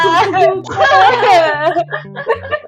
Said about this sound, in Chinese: 呃，所以我在哭啊。